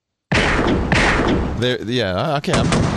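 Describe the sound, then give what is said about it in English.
Pistol gunfire in a PC shooter video game: two sharp, booming bursts in quick succession, followed by wavering, voice-like tonal sounds. “I couldn't tell I was shooting because it didn't make any bullets come out.”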